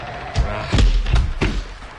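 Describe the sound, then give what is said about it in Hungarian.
Heavy thuds as a door is slammed shut quickly on sheep in the rain. A few low, dull knocks land over a steady hiss. “Csukjátok rájuk az ajtót, gyorsan.”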